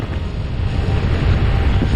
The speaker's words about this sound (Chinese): 现在开始起外面风了， 雪原上起风了。